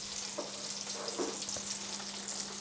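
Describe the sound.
Button mushrooms frying in butter give a steady, faint sizzle, with a few soft stirring sounds.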